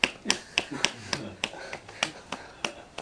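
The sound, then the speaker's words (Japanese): Audience applause made of slow, evenly spaced claps: a steady series of sharp, crisp strikes, roughly three each second, that keeps an even rhythm throughout. “乏しい時に与えた人に本当にみんな拍手出してます”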